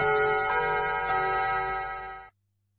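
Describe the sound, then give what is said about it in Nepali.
A radio's hourly time signal sounds as a single sustained electronic tone with a bright, bell-like ring. It holds steady and fairly loud for a little over two seconds, then cuts off abruptly. “यो radio दिदी बहिनीको समय सूचक हो। अहिले अपराह्नको ठिक 3 बज्यो।”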